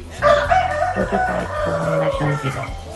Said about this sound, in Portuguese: Aí os galos cantando em Barra Escondida Sul Brasil, Clarice Neres Flos